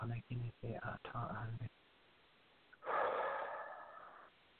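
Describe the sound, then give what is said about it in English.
One long, deep breath is exhaled out through the mouth during a guided breathing exercise, a single breathy rush that comes after a short stretch of speech. “out through your mouth, please. Again. Okay, there's. Okay, one more breath, please.”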